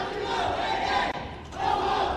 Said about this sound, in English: They have good rhythm. You got to give them that. You know, a lot of times you get protesters and they're just a little bit off. You know, they're clapping on the 1 and 3 versus the 2 and 4, or vice versa.